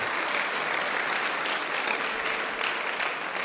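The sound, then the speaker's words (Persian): A standing audience applauds, a steady dense wash of many hands clapping at an even level from start to finish. “الان وایستادن دست بزنیم براشون”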